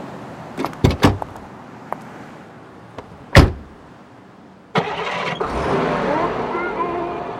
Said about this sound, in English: What kind of car is this? Gas Volga. An older model. It's Russian.